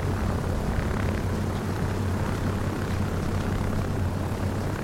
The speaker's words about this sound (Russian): Заснеженный аэродром. К самолету подъезжает внедорожник с открытым верхом.